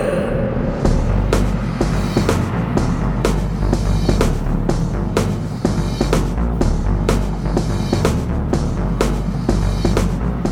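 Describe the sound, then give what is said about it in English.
Road noise from inside a car as it drives down the road forms a loud, steady low rumble, with occasional sharp ticks and knocks scattered through it and no talking. “the sound you hear in the background is, as usual, me driving down the road.”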